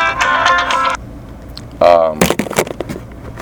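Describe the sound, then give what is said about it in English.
A mobile phone ringtone goes off during a Redskins team talk: a short melodic ring lasting about a second, followed by a man speaking. “That's my phone, so don't feel bad.”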